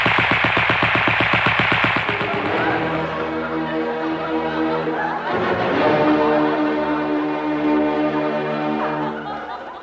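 Gunfire from a firing squad in a radio comedy, heard as a rapid rattling burst of shots over roughly the first two seconds.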